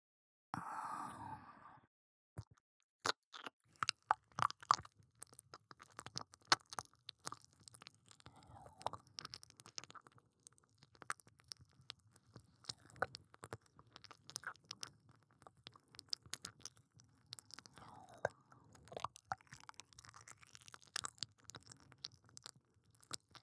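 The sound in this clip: Soft ASMR mouth sounds of chewing and nibbling on an ear. Many quiet, wet clicks and crunchy little bites come in an irregular stream, with a short breathy sound at the start.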